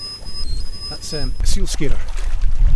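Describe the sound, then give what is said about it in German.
Thin, high, steady electronic tone from an acoustic seal deterrent at a floating salmon farm on Loch Linnhe. It is held for about a second and then stops, under a voice talking, with low water and boat noise throughout. “Was Sie da hören, ist ein Ton, der Seehunde fernhalten soll, die sich sonst durchs Netz beißen würden. Dieses Piepen ertönt öfter, als es vermutlich nötig wäre”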